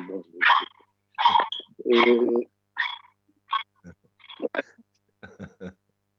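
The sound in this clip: A dog barks in a run of short, sharp bursts, some higher and yelping, mixed with human voices.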